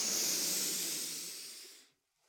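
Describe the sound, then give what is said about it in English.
A slow, deep meditative breath is demonstrated: one long, airy exhale hisses steadily and fades gradually over nearly two seconds, followed by the faint start of the next breath. “So the breathing sounds like this.”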